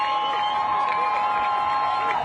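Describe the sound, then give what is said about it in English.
A crowd outside cheers as a helicopter carrying four released female Israeli soldier hostages arrives, producing a steady mass of shouting voices that stays loud throughout. “The crowd outside cheered when the helicopter arrived.”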